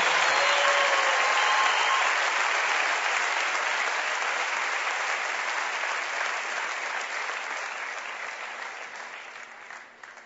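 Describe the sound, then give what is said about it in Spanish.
Audience applause at a Christian worship event: a thick, sustained burst of many hands clapping that starts loud and slowly dies away over about ten seconds. “Un aplauso para Lili, por favor.”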